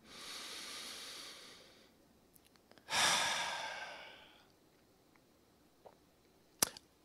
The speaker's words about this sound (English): So I'm going to breathe one more time and invite you to do the same with me.